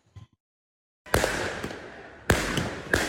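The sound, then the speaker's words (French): Firework mortars fired at police during clashes with youths outside a high school gate: a few sharp, loud blasts with brief crackling tails, separated by short pauses. “Des policiers pris pour cible par des tirs de mortier, de petits projectiles et même par du mobilier urbain.”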